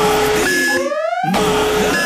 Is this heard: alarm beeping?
yes